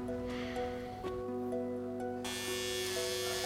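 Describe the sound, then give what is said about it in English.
An electric shaver buzzes as it shaves hair off a head, a faint, continuous hum whose tone shifts a couple of times as the blades move. “So I just help me shave my hair. No, I'm not shaving your head. Fine. I'll do it by myself.”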